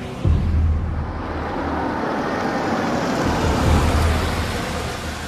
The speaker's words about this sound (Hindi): गाड़ी पीछे ले। क्या सर, घर वापसी? अबे नहीं, रिवर्स ले।